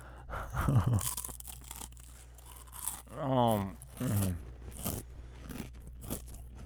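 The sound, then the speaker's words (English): A snack bag being opened and its contents crunched, giving crinkly rustling and crunching throughout, with brief voiced sounds in between. “Dang, controversial opinion. I like that the bag is half air.”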